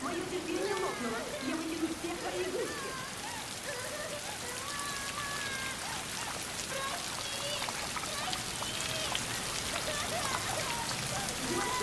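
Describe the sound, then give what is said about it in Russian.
Light rain falling steadily, a dense continuous hiss of small drops and patter that stays even in level from start to finish. “Накрапывает дождь.”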